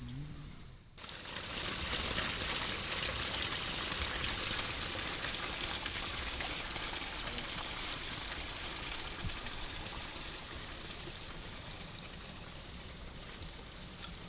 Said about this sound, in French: on est dans un parc, il y a de l'eau qui coule, et il y a des jeux d'eau à côté.